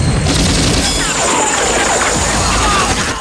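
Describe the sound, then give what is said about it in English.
Gunfire in a film scene as a gunship rises and shots come from a compound: dense, loud, continuous bursts and crashing booms filling the whole stretch with barely a pause. “Smoke wafts from the gunship as Zeisson fires from the compound.”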